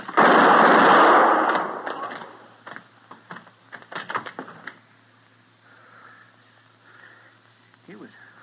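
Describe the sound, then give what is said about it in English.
A gunshot from an old-time Western radio drama cracks out as one loud, harsh blast with a lingering, ringing tail. Voices talk afterward. “He was drawing on you, Mr. Dillon. He was going to shoot you in the back. He dead?”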